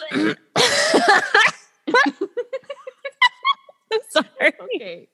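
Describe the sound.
A person's coughing and throat clearing: a loud, harsh, broad burst lasting about a second, then a run of short, clipped voiced bursts with brief gaps between them.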